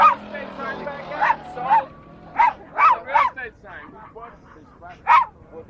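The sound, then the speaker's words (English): A dog barking: a string of sharp, loud barks in irregular bursts, some closely bunched and others spaced by pauses, with softer yips between them. “That's my dog.”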